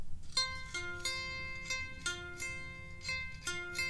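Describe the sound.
Plucked strings on a bare guitar neck with no body attached, a quiet run of many separate bright notes with sharp attacks and quick decays.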